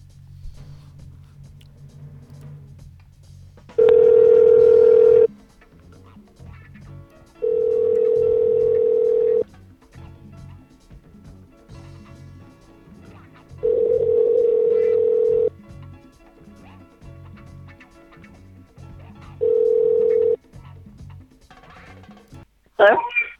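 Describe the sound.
Telephone line tones as a call is placed: four long, steady tone bursts, each lasting one to two seconds and separated by several seconds of low background hiss.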